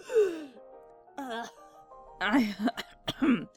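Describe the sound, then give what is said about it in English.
Choking and coughing after something went down the wrong pipe. Strained, groaning breaths give way to a cluster of sharp, raspy coughs and throat-clearing. “I think so. Just went down the wrong pipe, I guess. God, I couldn't breathe.”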